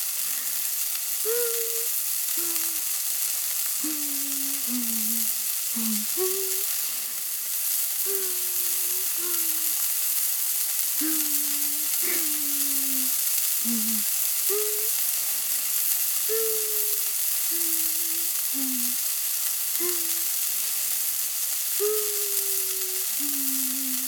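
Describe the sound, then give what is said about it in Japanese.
Hamburg steak patties sizzle as they fry, giving a steady, bright hiss that runs unbroken. Short, low tonal blips sound on and off above it. “ハンバーグ、焼き、ハンバーグ。”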